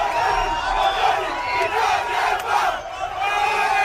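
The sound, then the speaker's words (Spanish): Crowd of neighbours cheering as a section of the border fence between Gibraltar and Spain is torn down: a loud, sustained roar of shouts, whoops and cheers without pause. “Es el sonido de cómo celebraban vecinos de esa zona la caída de la verja que durante 117 años ha separado el Peñón y la península.”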